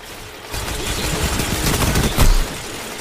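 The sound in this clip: Rapid auto rifle fire from the Sweet Business gun during a Destiny 2 Control match on Xbox: a dense, continuous stream of shots starts after a short pause, holds steady, then swells into a heavier burst near the end.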